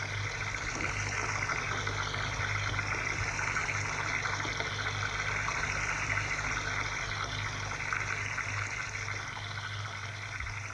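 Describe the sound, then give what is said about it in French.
Water runs steadily from a tap as someone wets their hands and sleeves and washes their face: a continuous, even rush that holds for the whole stretch without voices. “Il a ouvert le robinet et se mouille les mains et ses manches. Il se lave la figure.”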